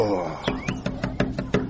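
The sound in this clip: Knocking on the door of a village guest room: seven quick, evenly spaced raps in a tight rhythm.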